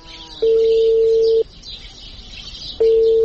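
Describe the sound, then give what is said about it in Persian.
Ringback tone of a dialed telephone call that goes unanswered: two long, steady, mid-pitched ring tones separated by a pause, over a constant background hiss. “زنگ تیر میکنه خود جواب نمیده.”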